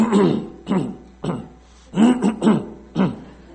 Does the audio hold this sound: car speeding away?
no